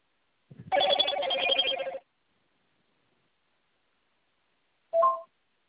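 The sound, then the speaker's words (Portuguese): Telephone keypad tones beep out a number in one long, continuous burst as a call is placed, followed after a silent pause of about three seconds by a single short tone. “Eu tô te ligando, tá? Não é aquele número que eu te liguei primeiro.”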